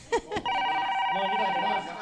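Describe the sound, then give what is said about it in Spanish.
An incoming call rings in a community radio studio: a steady electronic telephone ring holds for about a second and a half. “Tenemos llamada.”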